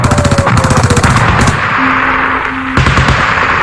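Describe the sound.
Machine gun fire in a battle: two stretches of rapid, loud repeated shots, the first lasting about a second and a half and the second near the end, with a quieter lull between them.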